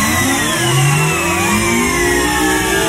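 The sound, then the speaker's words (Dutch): A supercomputer powering up as a sound effect: layered whirring tones sweep steadily upward, loud and continuous, over a low engine-like rumble, with no voices. “We starten de supercomputer nog eens op.”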